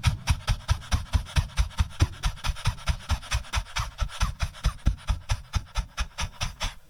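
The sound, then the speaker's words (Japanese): Rapid, rhythmic panting breaths are forced out while the belly is pushed in during an exercise. Many short, breathy exhalations follow one another at a fast, steady pace, each with a soft thump-like low pulse. “はっはっはっはっはっ、お腹をねグッと押し込みながら息を吐き出す。”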